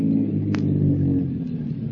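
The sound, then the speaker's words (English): A car on a little-traveled highway comes around a curve and slows, its engine a low, steady rumbling drone with a brief faint tick partway through. “A car comes around a curve. Slows up.”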